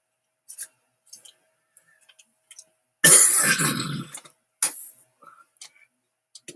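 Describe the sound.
Harsh coughing from a smoker whose cough is getting worse: one long, rough burst, then a shorter second burst, with faint scattered clicks in the quiet around them.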